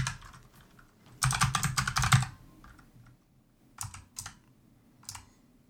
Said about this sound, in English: Let me just type this up.